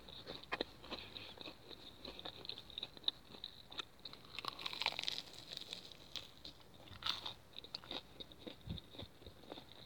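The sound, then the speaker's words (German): Someone chews chicken nuggets with quiet, moist crunching and many irregular bites and mouth sounds. The chewing is continuous and there is no talk over it. “Ich habe jetzt fast 20 Nuggets gegessen und ich habe noch mal 20.”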